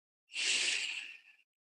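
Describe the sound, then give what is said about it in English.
A single deep inhale through the nose during a guided calming meditation, a soft, breathy hiss that swells quickly, holds for about a second, then tapers away, heard alone. “Go ahead and inhale through your nose.”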